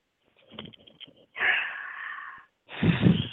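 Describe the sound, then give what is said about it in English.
Deep breaths in and out during a guided relaxation breathing exercise: faint, soft airy rustles, then two loud, long, breathy exhalations or inhalations separated by a short pause. “Two more times again. Breathe in deep. Good. And the next one even deeper.”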